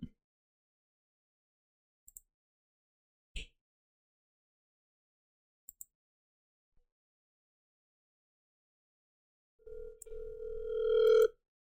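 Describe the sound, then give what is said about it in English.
An electronic telephone tone signals an incoming caller on a call-in line. It comes after near-silence broken by a few faint clicks and swells into a steady buzzing ring of about one and a half seconds near the end. “Oh, is that a caller? Who's that? No, never mind. Oh, wait, no, it is a caller.”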